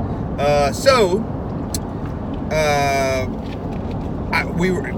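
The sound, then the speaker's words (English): Road noise inside a moving car, a steady low rumble running through the whole clip, with voices heard over it. “We probably got a little road noise.”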